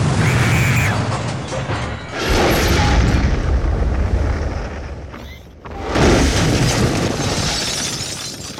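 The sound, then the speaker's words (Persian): A loud explosion with a deep, sustained rumble and crashing, shattering texture. It roars in long waves with brief dips between them, and no voices are heard. “جای صدای احمد صدای انفجار بلند میشه.”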